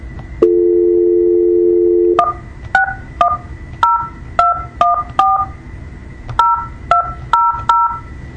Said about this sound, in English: You entered 271735.